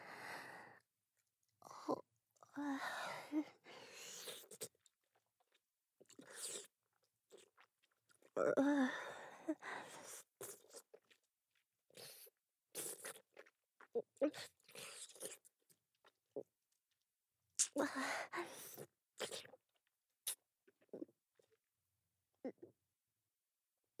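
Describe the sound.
Chewing and crunching food: many quiet, irregular bites and crunches separated by short pauses, with faint breathing between them and no talk.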